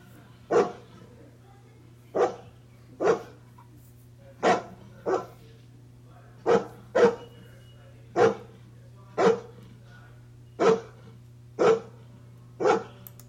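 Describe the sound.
Dogs bark in single, sharp bursts, about twelve of them spaced roughly a second apart at an even pace. A steady low hum runs underneath.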